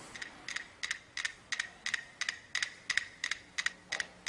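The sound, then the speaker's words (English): Five metronomes tick out of phase: many sharp, bright clicks arrive in a steady stream, some doubled or smeared together, all quiet and even in level. “So over here you can see five metronomes. And think of these five metronomes as five brains. And similar to the listeners, before the story starts, these metronomes are going to click, but they're going to click out of phase.”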